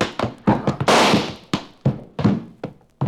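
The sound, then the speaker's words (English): Gunshot in a western shootout, with a bullet hitting a man's leg: a loud, noisy blast rings out amid a series of short, sharp thumps and knocks spaced irregularly through the scene. “That slug just went through the fat part of your leg.”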